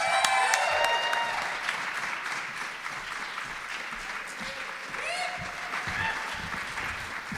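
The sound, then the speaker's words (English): An audience applauds for a standing ovation at a story-and-song show at Judson Church. Dense, steady clapping continues throughout, with a few voices faintly mixed in. “I would say, a standing ovation already?”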